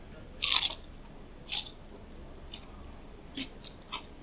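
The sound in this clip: Crisp crunching as someone bites into crispy fried food, eaten plain before being dipped in broth. One loud crunch comes first, then a few softer, spaced crunches, with no talk.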